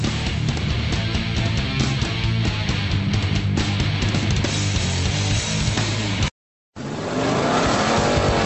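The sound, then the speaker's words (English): Race car engines roar at a twelve-hour endurance road race in Florida featuring sports cars from makes such as Porsche, Corvette, Ferrari and BMW, a loud, continuous roar that breaks off briefly near the end, then resumes. “See Porsche, Corvette, Ferrari, Jaguar, BMW, Mazda, Acura, Audi, and many other world-class racing teams battle in America's toughest road race”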